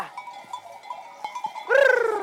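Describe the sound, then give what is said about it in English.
A grazing flock of sheep and goats, used as a fire-prevention flock in the hills above Barcelona. Faint, steady sounds and soft clicks lead into one loud, wavering bleat near the end. “In fact, there are now four flocks of sheep and goats working the hills above Barcelona.”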